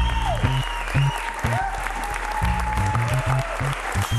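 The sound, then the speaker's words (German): Applause from a standing ovation for about a dozen young inmates after a hip-hop concert inside Plötzensee youth prison in Berlin, a dense, steady wash of clapping that stays loud for the whole stretch. “Nicht so wie sonst, ne? Standing Ovations für ein Dutzend Häftlinge.”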